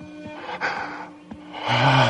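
A lion gives two short, rough, throaty roars, low and gravelly with a rumbling growl, separated by a brief pause.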